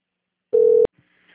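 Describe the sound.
A telephone call-transfer tone: one steady mid-pitched beep lasting about a third of a second, cut off by a sharp click and followed by faint line noise.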